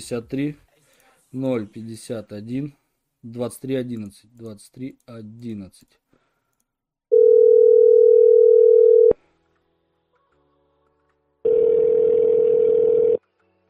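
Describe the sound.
Telephone ringback tones on a call to a loan service: after a stretch of talking, two long, steady, even tones of about two seconds each sound alone, separated by a short silent gap.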